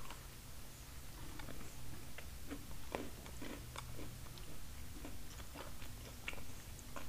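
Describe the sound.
Crunchy biting and chewing of a fig roll biscuit, a steady run of many small crisp cracks and moist mouth clicks that keep going without a pause and with no talking.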